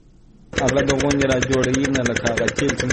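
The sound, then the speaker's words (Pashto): A diesel generator engine pumps irrigation water from deep wells for a four-jerib wheat field in Kandahar's Dand district. It kicks in abruptly after near-silence, then runs as a loud, steady, rapidly pulsing mid-pitched drone. “عزت الله د کندهار په ډنډ ولسوالۍ کې خپل څلور جریبه د غنمو کښت د جنراتور په وسیله اوبه کوي.”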